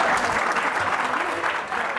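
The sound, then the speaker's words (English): Applause from a stand-up comedy audience for a man named Pierre in the crowd; continuous, dense clapping across the whole moment, fairly loud and even. “Let's clap it up for him.”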